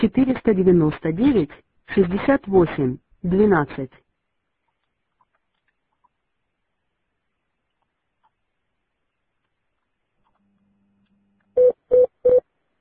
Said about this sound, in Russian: Производим звонок.